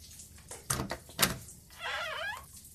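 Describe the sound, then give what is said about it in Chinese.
A door being opened: two sharp knocks or thumps, then a drawn-out creaking squeal as it swings. “你确定要自己一个人待着吗？把门打开。”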